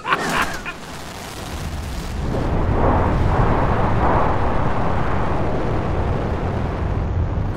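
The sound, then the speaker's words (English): Rocket ship launching and breaking away from Earth: a sharp hissing burst at the start, then a deep roaring rumble swells and holds steady for several seconds. “This rocket ship is breaking away from the Earth with the speed of light, right into the path of the new planet.”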